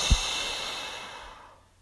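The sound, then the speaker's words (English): A slow, deep breath out, heard as a steady breathy hiss that fades gradually to silence after a faint low thump at the start. “Take a deep breath in with me. And breathe out.”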